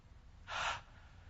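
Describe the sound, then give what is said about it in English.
A single deep breath drawn in, a short soft rush of air that swells and ends within about half a second, heard alone with no talking. “having trouble seeing God's hand in your life today? Take a breath. There it is.”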